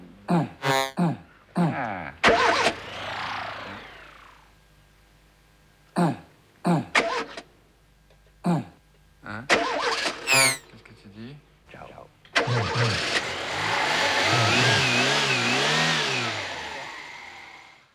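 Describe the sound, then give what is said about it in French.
Electronic sweep effect in an electroacoustic piece: short, choppy vocal fragments and bursts give way to a sustained, loud band of noise with wavering, sweeping tones over the last several seconds. “C'est ça le sweep, c'est ça l'effet du sweep.”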